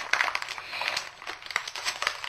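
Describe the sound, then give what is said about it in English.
Wrapping paper crinkles and rustles as its edges are folded over and taped together. It makes a continuous run of soft crackles and scrunching with many small sharp peaks, steady in level throughout, with no voices. “And just fold over the edges and tape together.”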